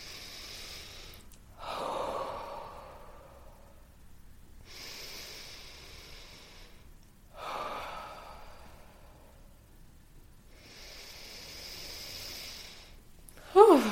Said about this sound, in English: Three deep breaths at your own pace.